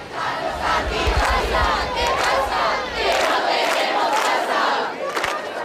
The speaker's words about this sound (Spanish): no apaga la protesta, cada vez llega más gente y los gritos suenan más alto.